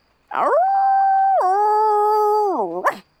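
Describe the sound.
A human voice imitates a dog or wolf howl: one loud, sustained tone held for more than two seconds, stepping down midway and flicking upward briefly at the end, with no other sound around it.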